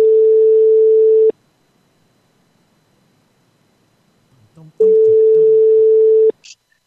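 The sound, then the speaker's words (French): Telephone ringback tone after dialing a number: two long, steady mid-pitched tones separated by a pause of about three seconds, with faint rustling just before the second tone. “Allez, le numéro est composé.”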